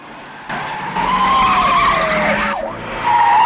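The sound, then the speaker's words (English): Car tyres screech as a car spins around a crossroads during a chase: an engine roars in, then a long squeal slides downward in pitch, breaks off briefly, and a second loud squeal follows. “Back on the tarmac, Bond spins around a crossroads, sending the pursuing vehicles in circles as he speeds off again.”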